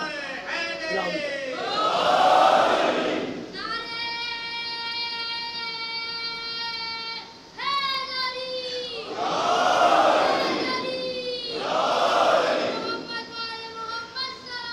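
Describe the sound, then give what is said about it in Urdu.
Crowd chanting a slogan at a political rally: a loud, sustained chorus of voices holds long tones, broken by three swelling bursts of massed shouting. “یار نعرہ دب گیا ان کا, پھر سے لگا دیجئے.”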